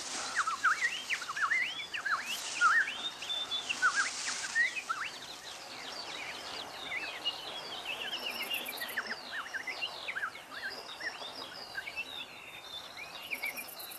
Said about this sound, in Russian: Жует зерна, вслушиваясь в пение птиц.